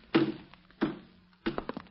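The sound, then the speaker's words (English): A kitchen door being closed: a few dull, hollow thuds with short decays, separated by brief pauses, with no voices. “maybe I better close the kitchen door. Seems to me I feel a draft.”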